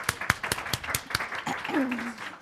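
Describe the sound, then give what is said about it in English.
Audience applause greeting a guest, heard as a run of sharp, scattered claps at a steady loud level, followed by a short sliding tonal sound as the clapping thins. “let's give him a big welcome with applause.”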